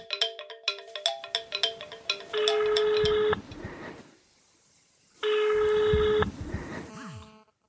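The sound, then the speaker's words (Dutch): Telephone ringing on an outgoing call: a quick string of keypad beeps, then two long, steady ring tones with a quiet gap between them. “Ik ga hem bellen.”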